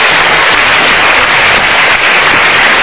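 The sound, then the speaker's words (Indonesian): Studio audience applause at a motivational talk show, a loud, dense, unbroken roar of clapping that stays steady from start to finish with no voices over it. “Super, kita berikan tepuk tangan sekali lagi.”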